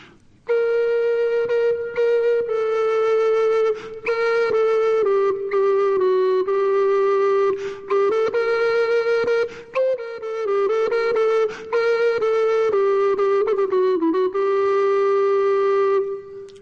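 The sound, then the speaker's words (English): A gemshorn, a hollowed-out African ox horn flute of a kind dating to the early 1400s, plays a melody of sustained, pure, flute-like notes with short breaks between phrases. The tone is clear and steady, heard alone. “This is an African ox horn. It's called a Gem's horn.”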